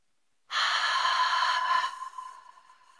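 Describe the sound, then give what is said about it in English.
Audible ujjayi ocean-breath exhale through a constricted throat: a long, steady, breathy rush lasting over two seconds that gradually softens and trails off, heard alone. “think of fogging up goggles on an exhale and making an audible exhale”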